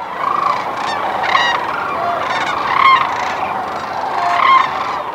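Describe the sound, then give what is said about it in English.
A large flock of sandhill cranes calls in Nebraska in March, giving a dense, continuous chorus of overlapping rolling, honking calls that swell and ebb throughout. “Now, sandhills don't typically venture this far east. They're found in large numbers in the middle of the country. Each March, hundreds of thousands of them descend upon Nebraska. Here's what that sounds like.”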